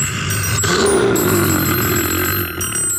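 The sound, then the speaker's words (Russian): A telephone ringing with an important call: a continuous buzzy, trilling ring with steady high tones sustained throughout, over a rough low rumbling layer. “Тут у меня звонок один, очень важный. Ответить надо.”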